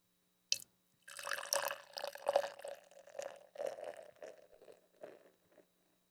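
A sharp click comes first, then a barrel-aged 10.5% ABV Six Point rye ale is poured from a can, making a fairly faint gurgle in uneven bursts before it trails off.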